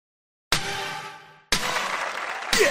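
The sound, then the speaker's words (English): Video game crowd cheering comes in three abrupt bursts of noisy roar. The first fades out before the next two break in, loud and with no talk over them. “They cheered you on the second note, so that means you are second.”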